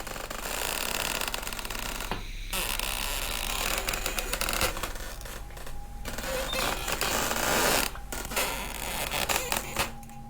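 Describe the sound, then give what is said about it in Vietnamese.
Moving trees creak and twist with a grinding, wooden groan. Many irregular creaks and scrapes run almost continuously, broken by short pauses, with no talk. “Những cái cây di chuyển phát ra những tiếng cọt cả cọt kẹt vặn vẹo đến ghê răng.”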